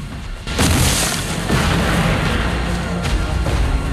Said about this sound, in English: The sappers return to their digging, whilst the artillery battle continues.